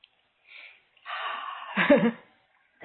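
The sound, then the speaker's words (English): A deep breath: after a short faint puff, a long breathy rush of air lasts about a second and swells before fading out, with no talk over it. “Okay, take a deep breath.”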